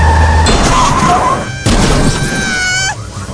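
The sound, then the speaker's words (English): A car crashes through a window in the video game Tiger Woods PGA Tour 11 on Xbox, making a loud, harsh smash that is cut by a brief gap before a second heavy burst. “Stop breaking through the window, Kenny. Oh, I'm gonna crash, I'm gonna crash.”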